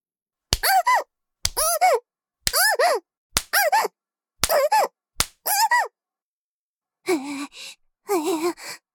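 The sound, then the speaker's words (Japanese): A hand spanks someone's bottom, giving six sharp smacks, each followed at once by a high yelping voice, then two more whimpering cries come without a slap. “だから、お尻叩くのはダメですって。”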